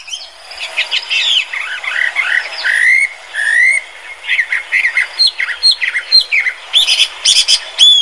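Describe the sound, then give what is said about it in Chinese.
A Chinese hwamei thrush sings a loud, rich, varied song of whistled phrases and rapid chirps, with pitch changing often and short pauses between phrases. “这就是画眉鸟的叫声。”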